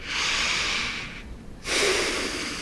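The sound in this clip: Deep breathing by a patient during a physical exam: two long, airy breaths separated by a brief pause, clear and alone with no talk.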